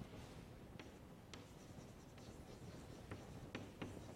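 Handwriting strokes scratch steadily as someone writes out a graph-theory sum during a maths explanation, with several sharper pen taps and no talk over a constant low noise floor.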